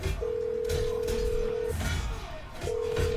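Steady electronic telephone tone as a call is being placed: one long, even tone holds for about a second and a half, breaks off, then starts again, with low background noise underneath.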